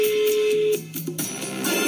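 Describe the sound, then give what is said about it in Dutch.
Telephone ringing tone while a call is being placed: a steady, even electronic tone holds for under a second, then gives way to a lower, softer tone pattern that continues to the end. “maar hij heeft een update, dus we gaan hem even bellen.”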